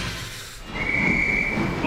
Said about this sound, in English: Aboard! The train now departing from HFM is the Mole Train.